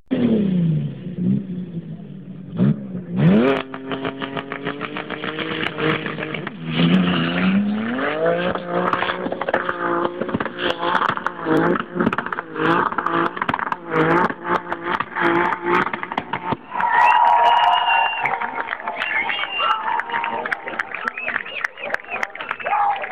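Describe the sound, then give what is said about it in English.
Modified cars in the UAE revving hard and accelerating, engine pitch climbing and dropping through repeated runs, with tire squeal and skidding mixed in, loud and continuous throughout. “Is of modified cars in the UAE. It reminds me when we go to the desert, especially to Uwafi or Al Udeib in Umm Al Qiwin.”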